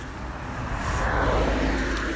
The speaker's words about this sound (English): Car!